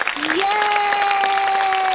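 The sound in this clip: A crowd applauds and cheers a poetry contest winner: brief, dense clapping with some cheering, and a sustained tone that slides upward and then holds steady over it.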